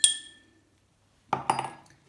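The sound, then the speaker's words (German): Spoon clinks against a glass while salt is stirred into water. A single bright clink is followed by a pause, then a quick cluster of several clinks and light scraping. Nobody speaks. “Mein Löffel ist jetzt ein bisschen klein, deswegen mache ich mal zwei. Schön umrühren.”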